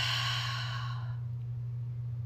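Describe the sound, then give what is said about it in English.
A single deep breath out during a guided meditation breathing exercise: a long, soft, airy exhale lasting about a second that fades away, leaving a steady low hum underneath. “Taking a deep breath in. And a deep breath out.”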